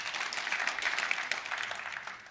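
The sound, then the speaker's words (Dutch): A church audience claps, a faint, dense ripple of hands that stays fairly even with small swells and fades a little toward the end. “Ja, je mag klappen voor wat God doet.”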